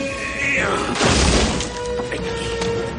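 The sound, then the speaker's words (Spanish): A refrigerator is knocked over onto a kitchen floor during a shootout in a 1996 action thriller, landing as a single heavy crash with a deep thud and shattering, over steady sustained tones from the film's soundtrack. “Llegan a la cocina y tira el frigorífico al suelo.”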